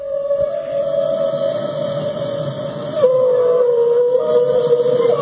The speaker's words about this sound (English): The sound effects, the live sound effects. That's the sound of whales.